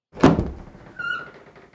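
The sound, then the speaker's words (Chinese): A door to an imperial palace study is pushed open. A heavy thunk comes first, then a short high-pitched hinge squeak, and the sound fades quietly away. “赵福推开门”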